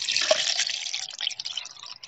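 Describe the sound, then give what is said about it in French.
Water pours into a glass with a steady, splashing hiss that thins out and breaks up towards the end. No voices are heard. “Il but un grand verre d'eau et s'affaissa sur son siège”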